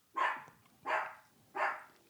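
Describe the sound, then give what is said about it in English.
A dog barks three times in an even rhythm, the barks sharp and fairly faint, with quiet gaps between them. “that's a dog. That's Nana's dog.”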